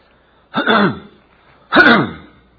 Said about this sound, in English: I'll get my throat right in a minute.